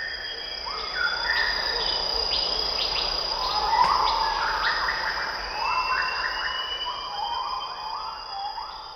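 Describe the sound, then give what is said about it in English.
Insects and birds fill a Sumatran rainforest. A continuous high, shrill insect drone runs throughout, and overlapping whistled calls, some sliding up or down in pitch, layer densely on top of it. “He shows us another spectrogram, this one he recorded in the rainforests of Sumatra.”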